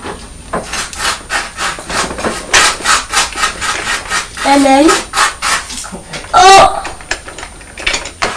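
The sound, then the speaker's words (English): A knife spreads butter and Marmite on toast with many repeated dry, rasping scrapes of uneven length. Two brief voice sounds break in near the middle and toward the end. “I'm just going to put some butter and some Marmite on your toast.”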